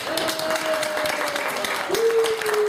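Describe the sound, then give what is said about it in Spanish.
An audience claps through the whole stretch, with dense steady applause at a moderate level and a voice speaking over the top of it. “aplausos por favor para su buena venta.”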